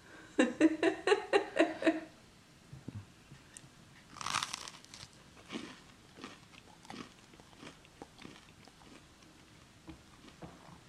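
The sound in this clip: A bite into bread spread with a thin layer of Marmite: one crisp crunch followed by a few soft, faint chewing sounds, after a brief run of rhythmic voiced sounds.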